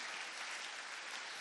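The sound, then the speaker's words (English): A church audience claps along during a service, making a dense, steady wash of applause. It stays loud and even throughout, with no single claps standing out. “Come on, clap your hands for Jesus, somebody.”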